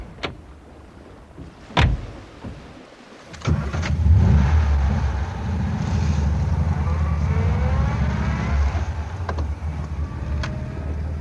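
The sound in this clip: A car drives off: a sharp thud, then the engine starts with a roar and revs up as the car accelerates away, leaving a steady, loud driving rumble.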